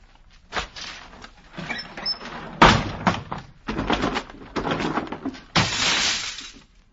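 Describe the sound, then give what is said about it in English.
Heavy drapes being ripped down inside a house: a series of loud, harsh tearing and crashing bursts, separated by short gaps. The sequence ends in a long, broad rushing burst that fades out. “I have come back to let the sunlight in. Oh, Pip. I shall open the drapes, Miss Havisham. I shall rip down the drape!”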